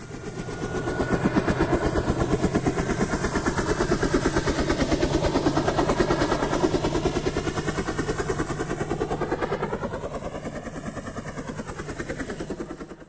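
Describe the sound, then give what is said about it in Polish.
Helicopter rotor beating in a rapid, even thudding chop that holds loud and steady throughout, easing slightly in level toward the end. “Helikopter.”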